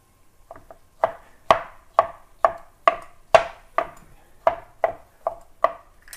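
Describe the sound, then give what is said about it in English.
Knife chopping black olives on a cutting board: a steady series of sharp, crisp knocks, a few soft taps first and then many firm, evenly spaced strokes, loud and with no talk. “You can see the olives. I'm going to chop them up and just make them more small.”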